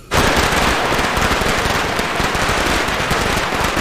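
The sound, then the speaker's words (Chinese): A dense, rapid string of firecrackers goes off for a birthday celebration, set off to ward off bad luck. The loud, crackling bangs burst in at once and keep up without a pause to the end. “看把你能力些，你过个生还放炮呢？ 哎呀，姐，你弟这两年净走背字儿呢，放个炮去去邪气嘛。”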